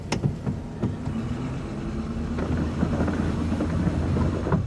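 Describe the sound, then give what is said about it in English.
A car drives along the strip, its engine a steady low hum mixed with wind noise, with a few faint clicks early on. “I'll get in. Drive along the strip.”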